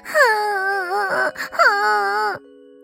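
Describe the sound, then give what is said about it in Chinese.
A voice performs a crying character, Alfie, from a children's story: two long, wavering wails separated by short, choked sobs, loud and alone, ending abruptly. “阿尔菲哭了起来。”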